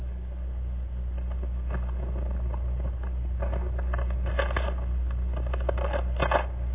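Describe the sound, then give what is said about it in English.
A paper envelope is torn open at an award ceremony: crisp crackling rustles and tearing bursts grow busier and louder toward the end, over a constant low hum in a muffled old recording. “I'm sure you can hear the envelope being opened.”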